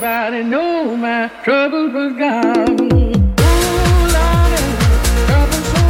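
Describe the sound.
A faster Afro House remake of a classic electronic blues track: a sliding sung vocal phrase plays first, then a pounding steady kick drum and dense percussion enter around the midpoint beneath the repeating vocal line.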